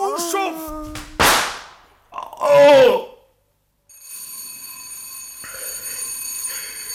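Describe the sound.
An electric bell rings to summon a butler, a steady, shrill ring holding through the last three seconds. Before it come a sharp burst and a loud voice.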